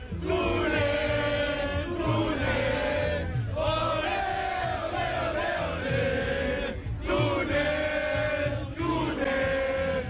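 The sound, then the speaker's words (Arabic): Tunisian and Mexican football fans in Monterrey cheer and chant together before a match against Japan, many voices joining in sustained, sung tones that rise and fall in rhythmic phrases. “هذه الجماهير التونسية ومعهم أيضا الجماهير المكسيكية اللي تفاعلت في مدينة مونتيري وتشجع في تونس قبل مقابلة اليابان.”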